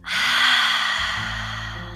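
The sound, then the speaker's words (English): A single deep breath, drawn in and let out through the nose or mouth, heard as a steady airy rush lasting about two seconds, fairly loud and alone with no talk. “So let's take a deep breath together and exhale.”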